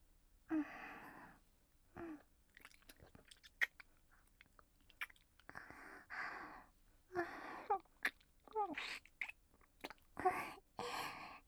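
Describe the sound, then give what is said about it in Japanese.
Soft, wet kissing smacks come in many short, quiet bursts at irregular intervals, with faint mouth noises between them. “キスおいしい。甘いね。”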